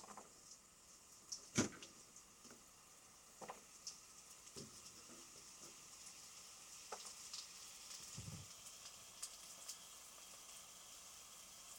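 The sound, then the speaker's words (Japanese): King oyster mushrooms and konjac stir-fry in olive oil in a frying pan, giving a faint, steady sizzle broken by a few sharp clicks and scraping stirs. “フライパンにオリーブオイルを垂らして、このままエリンギとこんにゃくを炒めていくよ。”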